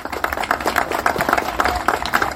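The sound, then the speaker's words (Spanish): Audience applause for the staff honoured at a public celebration event, loud and dense, with the clapping falling into a regular pulsing beat and no speech over it. “Y pido un aplauso para todos ellos que están aquí junto a nosotros.”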